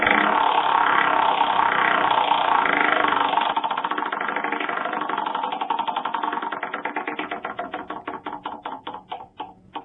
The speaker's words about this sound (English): Oh, but we have to spin the wheel. We gotta get a prize for it.